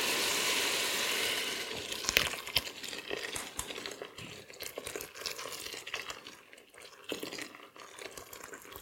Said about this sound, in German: Wollen wir das heiße Wasser reinmachen, bevor es kalt wird?